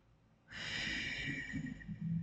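Deep breath drawn in through the nose during a guided breathing exercise: a soft, steady, airy inhale lasting about two seconds, quiet and alone with no talk.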